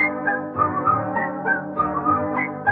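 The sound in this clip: Melodic whistling carries the tune of a Swiss-themed song over musical accompaniment, with a steady, moderately loud line of phrases and no singing voices.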